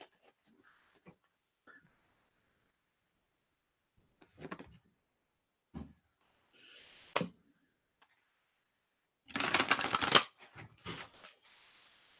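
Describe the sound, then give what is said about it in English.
Kuan Yin oracle cards being shuffled and pulled: a few faint, scattered taps and slides, then a brief dense riffling burst followed by soft handling, quiet overall. “pull a Kuan Yin card. That's been forever since I pulled one of those.”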